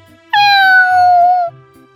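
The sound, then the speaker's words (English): A domestic cat gives a single loud, clear meow that holds for about a second and drifts slightly downward in pitch before stopping abruptly, with a faint low background hum. “I have a pet cat.”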